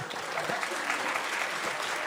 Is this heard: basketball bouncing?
no